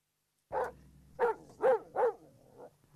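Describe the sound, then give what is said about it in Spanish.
Dogs barking: four sharp, mid-pitched barks in quick succession, then a softer, shorter yip, with no voices around them. “Están ladrando unos perros ahí”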